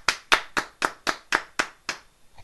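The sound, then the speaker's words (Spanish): Hands clap in a steady run of eight sharp, even claps, slowing slightly toward the end. It sounds like a single clapper or a small group rather than broad applause, with no voices. “Un aplauso para el capitalismo.”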